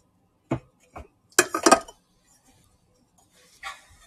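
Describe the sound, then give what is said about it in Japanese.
Glassy clinks and knocks as a Cafua coffee bottle is handled for warming: a few sharp, bright taps followed by a quick cluster of rattling clinks, then one softer clink after a pause. “コーヒー、えー、専用ボトルのカフアのボトルの方も温めていきますね。”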